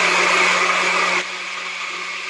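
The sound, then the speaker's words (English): A blender whirs loudly while blending an avocado smoothie. The steady, dense roar drops to a lower, even level about halfway through and continues without pause. “gonna blend this up if you don't mind the noise for just a minute.”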